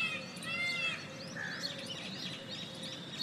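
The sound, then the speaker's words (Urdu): Doves cooing, a distant koel calling and sparrows chirping in a park in Rawalpindi: a busy, overlapping mix of high chirps and whistled calls over a steady low hum of cooing. “یہ فاختاؤں کی آوازیں, یہ دور کہیں کوئل کی آواز, یہ اور پرندوں کی آوازیں, چڑیوں کی چہچہاہٹ”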